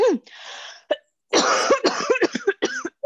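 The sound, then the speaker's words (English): Choking coughs, as if something is caught in the throat: several harsh, rasping bursts, irregular and loud, with strained, voiced gasps between them. “It sounds like you're choking.”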